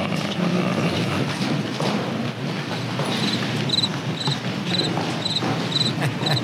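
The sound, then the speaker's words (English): Crickets chirping as a comedic silence effect, high rapid pulses repeating at an even rhythm over a broad noisy hiss; the chirps are strongest in the second half. “The added emphasis of crickets is how long he just stopped talking for.”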